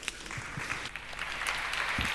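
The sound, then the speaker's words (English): Audience applause for two physical health coaches being introduced at an event: a dense, steady patter of many hands clapping that holds at an even level throughout. “So let's give them a quick round of applause.”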